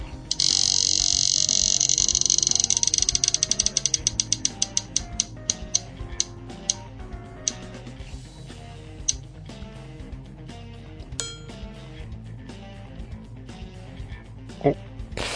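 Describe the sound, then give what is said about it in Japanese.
A roulette-wheel sound effect ticks rapidly at first, with a bright chiming tone at the start. Its clicks then slow down and spread farther apart over about fifteen seconds. “じゃあ、第49回目のルーレットいきたいと思います。ルーレット、スタートお、”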